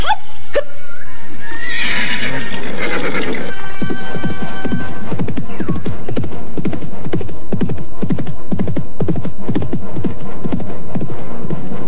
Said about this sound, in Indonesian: Benar-benar kuda yang hebat.